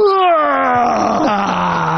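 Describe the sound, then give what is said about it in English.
A voice imitates a young boy's loud yawn during a wedding ceremony: one long, drawn-out groaning tone that slides steadily downward in pitch and stays loud for about two seconds. “And my son let out the loudest yawn. He just goes,”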